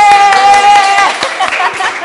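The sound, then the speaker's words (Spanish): A studio audience on a talk show claps and applauds with quick, scattered hand claps, while voices sound over the clapping. “En cambio aquí, miren, ¡aplausos!”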